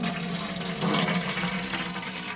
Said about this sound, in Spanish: La más joven de las tres dejó escapar un suspiro y vertió parte del agua hirviendo del caldero en una tetera.